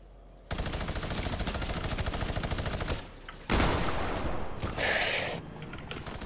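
Automatic gunfire from a bot spraying down from above in the Fortnite video game: a rapid, steady stream of shots for about two and a half seconds, followed by more loud, noisy bursts of fire.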